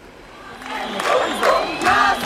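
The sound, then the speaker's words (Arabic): Crowd cheering and shouting surge in loud waves, many voices whooping and calling out together with a wavering, rising-and-falling pitch. “تشجيع. اسمعها مو نحن بنشجع معهم كمان.”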